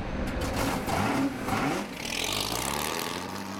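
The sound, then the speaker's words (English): Engine noise from a Ford 427 in a 1960s endurance race car, revving near 7,000 RPM on the Watkins Glen track: a steady, dense, buzzing roar that holds for a few seconds with a slight dip midway. “Nothing sounds as sweet as a 427 Ford at 7,000 RPM.”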